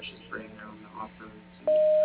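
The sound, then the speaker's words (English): A voicemail beep before leaving a message: a single steady, mid-pitched pure tone lasting under half a second, following faint talk. “You have reached Dave's voicemail. He is currently unavailable. Please leave your message after the tone.”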